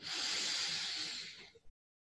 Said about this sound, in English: And so let's take a deep breath in.